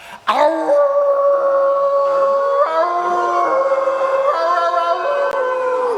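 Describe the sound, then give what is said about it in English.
A person imitates a wolf, letting out one long, loud sustained howl held for several seconds, its steady tone shifting slightly in pitch a few times before it fades. “The trick to howling is really just visualize your head turning into a really cool wolf, and then,”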